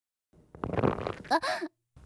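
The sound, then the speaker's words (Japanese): A woman's fart: a low, rough sputtering burst that turns into a short squeaky, tonal blast, then silence and a brief further puff at the very end. “どんだけこいたら気が済むのよ。しかも うわ超臭いし。”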